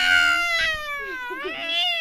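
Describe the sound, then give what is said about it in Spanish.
A human voice imitates an angry cat with a drawn-out, yowling meow. Its pitch wavers and bends over about two seconds, sustained and fairly loud. “¿Cómo hace cuando está enojado? Ándale, eso es cuando ronronea. Pero cuando está enojado,”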